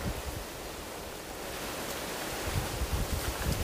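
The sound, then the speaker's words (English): Wind blows in a continuous rushing noise that builds slightly stronger toward the end, with no other clear sounds. “Oh, I gotta talk to the wind. Stop. Stop. Just fucking stop.”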